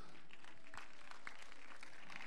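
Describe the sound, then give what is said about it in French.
Faint applause as jury members take their seats at an evening show, steady scattered clapping from an audience with a few sharper claps standing out. “On peut applaudir déjà les membres du jury qui commencent à s'installer à table.”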